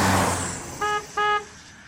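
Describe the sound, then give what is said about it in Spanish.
Car horn honking in two short, steady blasts of under a second each, one after the other, loud and bright over a faint background hiss. “¡Toca la bocina!”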